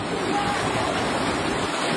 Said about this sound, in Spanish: Fuertes lluvias provocaron inundaciones repentinas en parte del recorrido en páramos y en algunos tramos el agua les llegaba hasta la cintura.